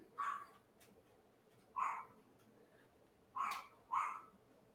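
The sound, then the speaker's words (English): A dog barks four times in short, separate bursts, with a long pause after the first two. The barks are fairly faint, and no other sound is heard. “Even the dog agrees with Ronda Rousey.”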